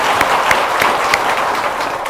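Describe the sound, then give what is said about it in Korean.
A church audience applauds, a dense, continuous wash of clapping with a few sharper individual claps standing out throughout. “우리 박수 한번 쳐주십시오.”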